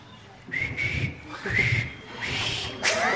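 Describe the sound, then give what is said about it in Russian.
A person whistles a few sustained, clear notes, each starting with a breathy burst and holding a fairly steady pitch. “Некоторые люди красиво свистят.”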